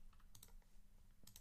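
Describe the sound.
Quick keystrokes on a computer keyboard as someone types a Google search, arriving in a few short, clacky bursts with brief pauses between them, with no voices over the tapping.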